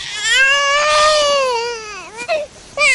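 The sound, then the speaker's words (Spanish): A baby cries while being rocked in someone's arms: a loud, sustained high wail that dips in pitch near the end, then breaks into a couple of shorter sobbing cries. “tranquilizar al bebé que ella mece en sus brazos”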